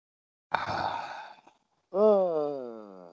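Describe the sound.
A slow deep breath during a mindfulness exercise about holding an unlit cigarette: about a second of soft, airy inhaling, then after a pause a longer voiced sighing exhale whose pitch gently falls.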